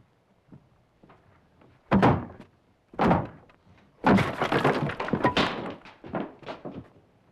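A door being broken down: two heavy blows land a second apart, then a longer crashing, breaking burst as it gives way, followed by a few fainter knocks and rattles.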